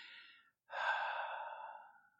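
A deep breath exhaled during a guided relaxation exercise: a brief breath, a short pause, then a long, steady, airy exhale that slowly fades. No other sound accompanies it.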